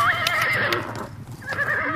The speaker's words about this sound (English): They are horses, Jane.